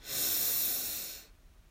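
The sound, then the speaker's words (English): A deep breath drawn in during a guided breathing exercise, heard as one long, steady, airy inhale of about a second that fades away at the end. “So breathe in and out. And our last breath together, breathe in”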